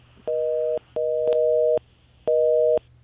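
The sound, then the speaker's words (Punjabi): A telephone busy tone sounds after a call's line has dropped: a steady, mid-pitched hum broken into repeating long pulses with short gaps between them, heard alone. “Hello ਮੇਰੇ ਖਿਆਲ line drop ਹੋ ਗਈ”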